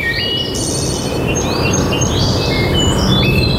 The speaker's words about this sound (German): Hier im Wald klingt Bayern anders. Hör hin.